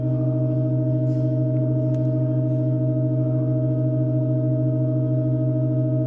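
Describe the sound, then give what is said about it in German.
Church organ pipes hold a sustained chord in an extremely slowly played piece, the keys kept down by weights, producing a steady, unchanging drone of layered pitches throughout, with a few faint soft noises above it. “Und für jeden weiteren Teil des Stücks werden entweder Orgelpfeifen hinzugefügt oder entfernt. Mir mal ein kleiner Klangeindruck aus dem Jahr 2023.”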